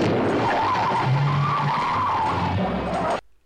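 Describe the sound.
Tire screech sound effect for an emergency turn: a loud, sustained high squeal of skidding tires lasting about three seconds, which then cuts off abruptly.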